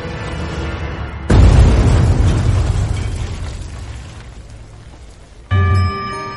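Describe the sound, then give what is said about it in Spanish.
A bomb blast in a beer hall, destroying a main pillar of the building: one sudden loud boom that decays slowly over several seconds into a rumbling hiss, then a sharp cut to another sound. “La bomba estaba colocada justo detrás de donde habría hablado Hitler. Mueren ocho personas y muchas más salen heridas. Destruye un pilar maestro del edificio.”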